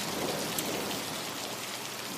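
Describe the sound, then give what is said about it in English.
Heavy rain pours down in a sudden, record-breaking rainstorm in Bogota, a dense, steady roar of drops with an even, unbroken hiss throughout and no voices. “All of a sudden, it starts to rain.”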